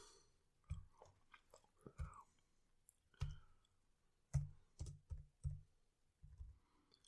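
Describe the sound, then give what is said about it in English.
Faint, dull clicks of a finger slowly pressing number keys on a calculator, several irregularly spaced taps with pauses between them and no talking. “very slowly finger typing math. Painfully slowly.”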